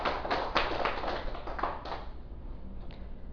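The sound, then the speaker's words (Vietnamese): Clapping from an audience at a Buddhist dharma talk: a faint patter of many hands that thins out and fades over a few seconds. “Xin quý vị vỗ tay.”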